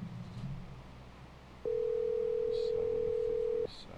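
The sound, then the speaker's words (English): A telephone dial tone sounds while someone calls a dropped caller back: one steady, even tone holding for about two seconds over a faint background hiss. “Oh, we lost Bill, so I'll just call him back.”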